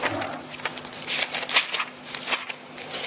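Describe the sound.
Pages of a Bible being turned to the Book of Malachi, a continuous papery rustle of crisp crackles punctuated by a few sharper flips.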